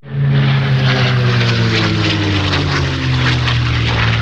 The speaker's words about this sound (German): Um die 1000 Augenpaare sind auf dem Flugfeld Schmerlat bei Neuchirch auf den Himmel gerichtet gewesen, wo ein Kampfflugzeug aus dem Zweiten Weltkrieg am Himmel gekreist ist.